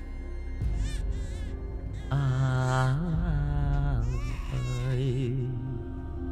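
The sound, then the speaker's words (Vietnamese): An infant held in a woman's arms cries shrilly in drawn-out, wavering wails that rise and fall. The crying stays loud and continuous throughout, with only brief catches for breath. “Đứa bé trong tay của người đàn bà cứ khóc ré lên, nghe đến rát cả ruột.”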